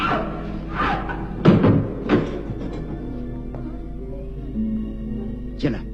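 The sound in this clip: A door is shut with a few dull thuds and knocks, the strongest near the middle, over a low, steady background hum.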